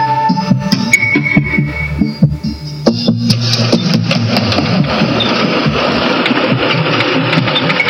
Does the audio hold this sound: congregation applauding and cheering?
no